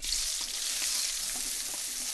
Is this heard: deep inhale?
no